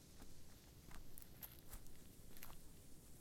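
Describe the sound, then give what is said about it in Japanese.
Footsteps crunch over dry fallen autumn leaves on a walk to see the autumn foliage. A few soft, irregular steps rustle faintly over a steady hiss, with no voices. “落ち葉を踏みしめる音も、ほんの少し乾いた空気も、私は好きです。”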